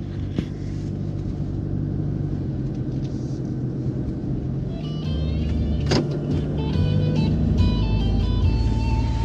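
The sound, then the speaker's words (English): A car drives on a road toward a village near the Laos–China border, producing a steady, loud engine rumble and tyre noise that continues unbroken and swells slightly toward the end. “The planting season has arrived, and Cam is driving to Ban Nam Tsi, a village near the border of Laos and China.”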